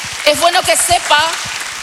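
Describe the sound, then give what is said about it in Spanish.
A church audience at a Spanish-language service claps in a brief burst of applause, heard beneath a voice that speaks over the clapping. “Dele un fuerte aplauso al Señor”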